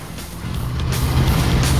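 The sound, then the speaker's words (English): A black van roars down a steep slope beside a road in pursuit. The deep, rough engine rumble grows steadily louder. “The black van appears and roars down one of the steep slopes flanking the road, in hot pursuit of Jack and Danny.”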